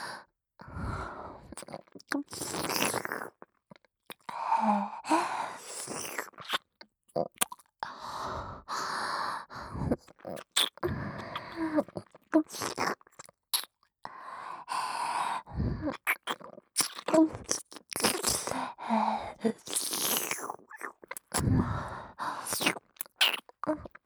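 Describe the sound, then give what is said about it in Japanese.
A tongue licking an ear in close ASMR style: continuous wet smacks, clicks and breathy sighs in irregular bursts throughout. “舌を使い、お耳へご奉仕させていただきます。”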